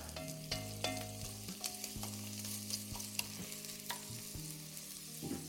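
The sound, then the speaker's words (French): Onions sizzling in a pan after five minutes of cooking, now turned translucent, with a faint, steady frying hiss broken by occasional stirring scrapes and light utensil clinks. “on a fait cinq minutes de cuisson pour nos oignons. Et ça y est, ils sont tous translucides.”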